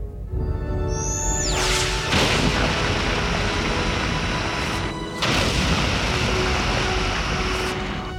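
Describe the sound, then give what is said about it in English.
A starship fires its phasers at a planet in a loud sci-fi sound effect: a dense, sustained roaring blast with descending whistling sweeps near the start and a couple of sharper surges partway through. “So the Enterprise is firing on the planet to release the CO2”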